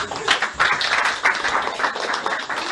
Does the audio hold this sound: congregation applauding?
yes

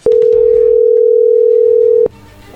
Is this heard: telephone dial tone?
yes

